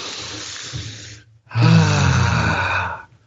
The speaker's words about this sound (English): Let's take a deep breath to clear our mind.